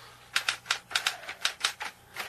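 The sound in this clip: A manual typewriter clatters as a writer types in the other room, with a quick, uneven run of many crisp key strikes that stand out clearly over a quiet background.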